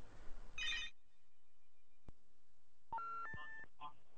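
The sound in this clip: Telephone signalling an incoming caller with a quick run of electronic tones: a brief noisy patch and a single click, then a few stepped beeps of different pitches near the end, all faint.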